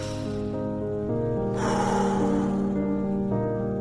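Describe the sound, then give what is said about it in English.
A single deep breath, an airy, breathy rush lasting just over a second, heard against soft sustained tonal music. “One more deep breath.”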